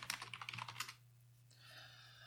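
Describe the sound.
Typing on a computer keyboard: a quick burst of faint keystrokes for about a second, then the tapping stops and only a low hum remains.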